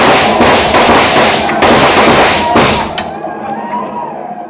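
Rifle gunfire in a radio drama battle scene against attacking riders: loud, dense, overlapping volleys of shots that crackle for about three seconds, then thin out to a couple of scattered reports over a fading rumble.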